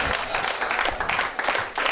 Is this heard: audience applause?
yes